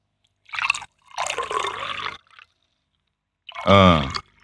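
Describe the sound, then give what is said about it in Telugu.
Water is poured into a glass tube onto a tin disc in two short rushing bursts separated by a brief pause, followed later by a short voice. “మంజుగొట్టంలో రేకుబిళ్ల మీదుగా నీటిని పోద్దాం.”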